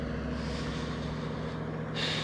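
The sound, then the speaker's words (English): A truck passing outdoors in the woods gives a steady low engine rumble under broad, hissing road noise. The hiss brightens near the end. “I live out in the woods, and there may be, like, probably more than I think, but a truck just drove by me.”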